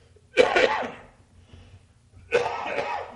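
Two coughs from a tickle in the throat, each a harsh, breathy burst that trails off, separated by a short pause.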